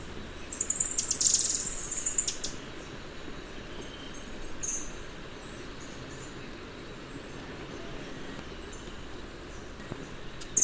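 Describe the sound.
Thrush-like wren song: a high, bright, buzzy phrase near the start, then brief faint high notes over a steady low rumble.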